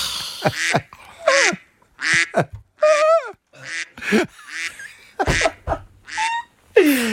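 Ducks quack repeatedly in loud, nasal bursts, many calls in uneven clusters separated by brief pauses, some short and clipped, others drawn out.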